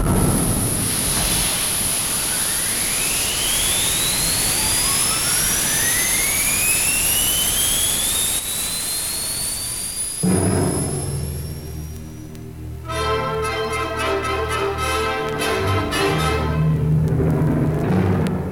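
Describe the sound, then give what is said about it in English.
Rocket engine firing at launch as a sound effect: a loud, steady roar with whistling tones sweeping upward for about ten seconds, then music takes over. “Countdown. 10 seconds to firing.”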